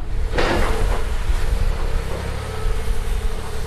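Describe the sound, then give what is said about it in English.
An excavator demolishing a brick grade school building gives a steady, heavy mechanical rumble. A brief crunching burst comes near the start. “This is the sound of demolition at Central Grade School in Traverse City. An excavator hacking away at the southwest side of the building yesterday.”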